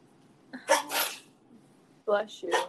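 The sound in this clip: A person sneezes, a sharp noisy burst early on, followed after a pause by another short, breathy vocal burst.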